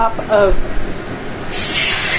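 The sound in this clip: Hot almonds sizzle as they are poured onto carrots, celery and dill. A brief voice comes first, then a steady, bright hiss holds to the end.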